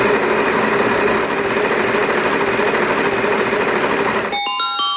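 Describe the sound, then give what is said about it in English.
A spinning prize-wheel sound effect plays during a sports talk segment. A loud, dense, steady whirring rush runs throughout and ends in a few bright, ringing chime tones. “Actually, spin the wheel one more time.”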